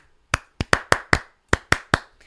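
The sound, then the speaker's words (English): Hands clap eight times in a quick, uneven rhythm, each clap sharp and crisp, with no talk. “Wait, I gotta clap.”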